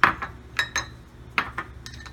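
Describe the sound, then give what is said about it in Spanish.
A cup of flour is sifted for biscuits, giving a few light metallic clinks and taps spaced irregularly over a soft background, with no talk. “Para hacer los biscuits, tamizamos una taza de harina y vamos a colocar”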